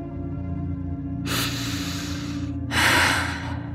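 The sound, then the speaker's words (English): Deep breathing, in through the nose and out through the mouth: two long, loud breaths, the second slightly stronger, over a steady low droning tone. “I breathe in through my nose, out through my mouth, hearing Flint's voice in my head.”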